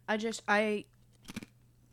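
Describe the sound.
Crunching of Kettle Habanero Lime potato chips being eaten: a few short, crisp crunches come right after a stretch of talking.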